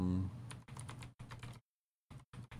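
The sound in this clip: Someone types a search into a computer keyboard: many quick, faint, clicky keystrokes in uneven bursts, broken by a short pause before a few more keys are pressed.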